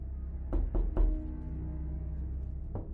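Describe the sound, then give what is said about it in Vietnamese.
Knocking on a room door: three sharp raps in quick succession, then a single further knock after a pause, over a low steady hum. “Bất chợt phía cửa phòng vang lên tiếng gõ cửa.”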